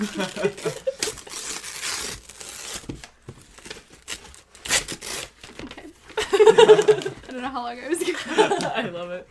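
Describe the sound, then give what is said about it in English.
Wrapping paper crinkles and tears as a white box wrapped in unicorn and donut paper is opened, in several scattered bursts mixed with chuckles and people talking. “ASMR. Just unwrapping.”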